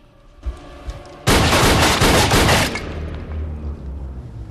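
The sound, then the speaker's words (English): A gun is fired at a door in a loud, dense burst of gunshots lasting over a second, which then cuts down to a quieter, lingering rumble. “she grabs her gun and shoots at the door.”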